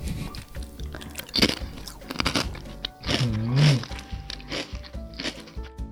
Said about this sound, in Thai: ลองเอาเลจิ้มน้ำราด